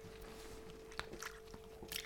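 Several people bite into lemon together, making faint crisp crunches and wet bites that come in a few separate moments.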